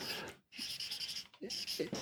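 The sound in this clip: Scratchy writing strokes as the word Dankbarkeit is written out, a steady hiss-like scrape broken by short pauses, with brief vocal sounds toward the end.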